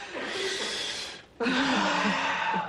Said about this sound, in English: Okay, now, take a deep breath.